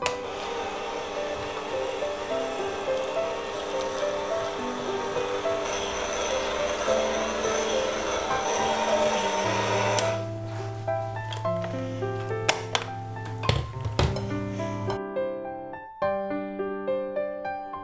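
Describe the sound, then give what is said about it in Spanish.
An electric mixer runs at low speed through cupcake batter with walnuts and carrot, giving a steady motor whir for about ten seconds before music takes over. “Las nueces. Y finalmente la zanahoria. Mezclar a velocidad baja.”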